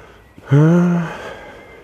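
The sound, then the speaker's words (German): Heavy panting from a man walking uphill: a single loud, strained breath with a low, groaning voiced tone, heard on its own. “Ich schnaufe übrigens so, weil der Rückweg ist bergauf.”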